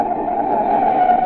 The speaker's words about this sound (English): That's the sound of a car as a desperate motorist has jammed on the brakes in an emergency.